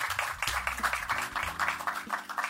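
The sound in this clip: An audience applauds a taekwondo athlete as she is introduced on stage. The clapping is fairly quiet and textured, with low sustained tones underneath.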